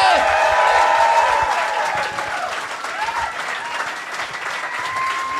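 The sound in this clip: A live studio audience applauds a comedian walking onto the stage: loud, dense clapping mixed with cheers that eases slightly after the first couple of seconds and carries on steadily.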